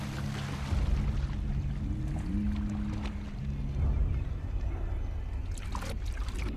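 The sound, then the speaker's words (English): Water churns and splashes as sharks crowd the surface and two of them fight, a continuous rushing wash that stays fairly steady in loudness with a few stronger surges throughout. “Sharks crowd the water. Two splash up next to her and fight.”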